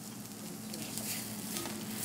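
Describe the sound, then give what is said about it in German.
Fresh thyme and whole garlic cloves sizzle as they are briefly pan-fried and turned in hot brown butter. The crackle is soft and steady and continues without pause. No one speaks. “Ein bisschen frischen Thymian und ganze Knoblauchzehen dazu. Nur sehr kurz anbraten und wenden.”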